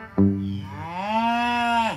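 A cow gives one loud, sustained moo alone. It starts abruptly and low, swells upward in pitch partway through, holds, then drops off sharply at the end.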